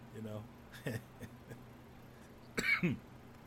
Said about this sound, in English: Maybe take care of this cough that I'm getting.